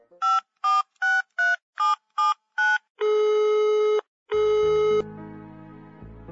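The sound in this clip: A telephone call being dialed: seven short, evenly spaced keypad beeps, then two long, steady ringback tones, followed by a lower, buzzing line hum.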